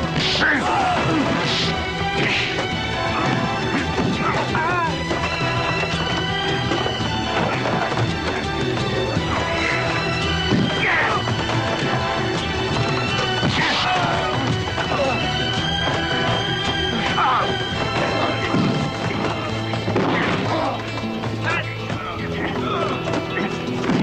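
A man beating on attackers in a crowded fight after men leap from hammocks: many heavy thuds, smacks and crashes over a dense, continuous clatter of scuffling bodies, loud and chaotic throughout.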